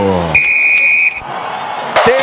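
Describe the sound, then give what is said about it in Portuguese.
A referee's whistle ending the first half of a Palmeiras football match: one long, steady, high whistle blast over constant crowd noise, with a commentator talking throughout. “Quando nesse momento apita o árbitro.”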